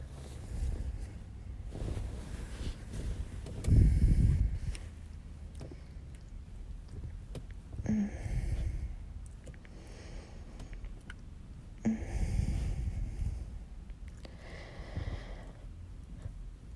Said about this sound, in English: Maybe I should stop chatting and I'll just breathe and you can listen.